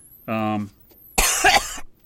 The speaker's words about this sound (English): I had a cough there.